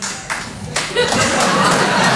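An audience applauds at a live show after being asked to clap. The clapping is dense and steady, swelling after a moment and continuing strongly, with some laughter mixed in.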